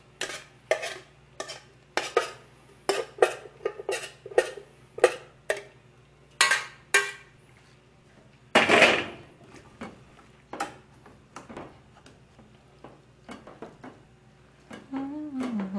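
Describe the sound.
Pots, dishes and cutlery clattering while food is cooked in a kitchen. Many irregular metallic clicks, knocks and taps continue throughout, with one louder scraping clatter near the middle.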